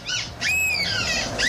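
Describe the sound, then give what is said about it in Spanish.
People imitate seagull calls with their voices, giving a quick high squawk followed by long, wavering, gull-like cries that bend up and down in pitch. The calls are moderately loud, with no speech. “Escucha, tenemos los audios de algunas gaviotas. Esos son humanos imitando a gaviotas.”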